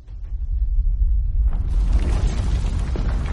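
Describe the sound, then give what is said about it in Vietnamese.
A thunderous blast tears across the sky, sweeping up earth, rocks, sand and dust: a deep low rumble swells and then breaks into a loud, sustained roaring wash of churning noise. “Bầu trời lại nổ vang một trận, cuồng loạn điên đảo, cuốn phăng hết đất đá cát bụi bay lên, tạo thành một vùng xoáy nguy hiểm.”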